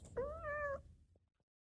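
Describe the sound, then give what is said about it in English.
A pet cat meows once: a single drawn-out, fairly high meow that bends slightly in pitch, faint overall and followed by a couple of soft small sounds. “And this is the sound of my cat meowing.”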